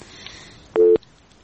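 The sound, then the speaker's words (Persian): A single short, clear tone beeps on a phone line after a dropped call, rising out of faint background hiss before the line falls quiet. “فکر کنم که تماس ما قطع شد”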